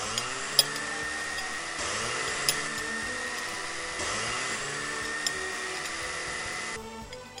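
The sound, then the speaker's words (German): A hand blender purées chopped garlic mustard into reheated soup, a loud, steady motor whir with a grinding edge that runs for about seven seconds with a few small knocks before cutting off near the end. “haben unsere Suppe dann nochmal erhitzt, geben jetzt unsere klein geschnittene Knoblauchrauke in die Suppe und pürieren die gleich auf”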